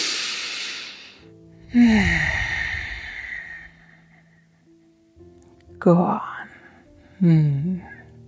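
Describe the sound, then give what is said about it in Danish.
A deep, full breath during yoga practice: a loud, airy inhale, then a long voiced sighing exhale that fades out. Shorter voiced breaths follow. “En vejrtrækning mere her. En fuld stor vejrtrækning.”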